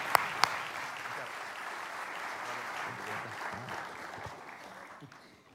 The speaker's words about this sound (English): Let's give Francis a warm welcome. Can we do that? Come on.